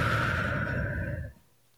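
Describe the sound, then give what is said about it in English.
A slow, deep breath let out through the mouth during a guided breathing exercise: a soft, airy exhale that holds steady for over a second, then fades into near silence. “taking a beautiful deep breath in again through your nose and out through your mouth.”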